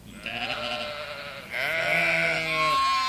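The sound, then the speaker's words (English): Lambs bleat in a few long, wavering calls with a nasal, quavering pitch, the later stretch louder and fuller with overlapping voices. “Oh no, lambs!”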